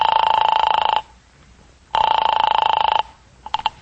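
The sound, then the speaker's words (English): A telephone rings after a number is dialed: two long, loud electronic rings separated by a pause of about a second, followed by a few short, quick clicks at the end. “Anyway, I dialed Clifton's number.”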